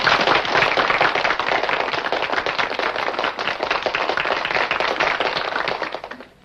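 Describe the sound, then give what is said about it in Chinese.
A classroom of students clapping to welcome a new teacher: dense, rapid, crackling hand claps at a steady, fairly loud level that tapers off at the end. “现在就请萧先生来给你们上课，拍手。”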